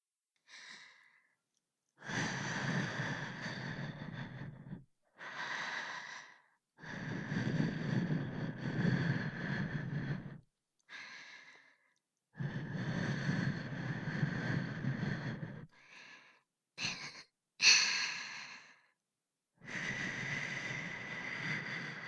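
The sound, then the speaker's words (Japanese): Breath blown in repeated soft, airy puffs to clear fine dust away, many bursts of varying length separated by short pauses, broad and hissy with no talking. “細かいゴミ息吹きかけて取っちゃうね”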